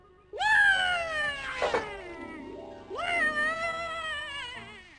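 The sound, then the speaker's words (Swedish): Two long, drawn-out cat meows used as a sound effect in a children's audio drama, loud and rich in harmonics, the first rising and then sliding down in pitch, the second gliding downward. “En katt, var?”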